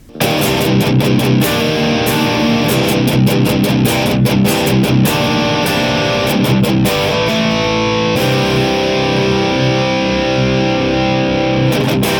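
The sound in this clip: Heavy distorted electric guitar through a Neural DSP Archetype Gojira amp plugin in stereo, with two cabinet impulse responses blended, one a DF2 Jubi V30. A loud, dense chugging riff with brief stops gives way to sustained ringing chords.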